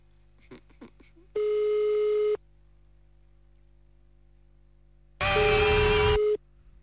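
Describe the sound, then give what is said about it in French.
Ringback tone of an outgoing telephone call: two long, steady tones separated by a few seconds of quiet, the second much louder and distorted, with no talk. “on appelle à Dampremis maintenant. Ça sonne, c'est le côté positif.”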